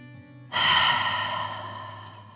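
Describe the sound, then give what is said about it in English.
A single deep breath taken during a guided relaxation exercise with shoulder release: a sudden airy rush of air followed by a long, steadily fading exhale lasting about two seconds, alone with no talking. “Let your shoulders fall back down and take a deep dragon breath in and out.”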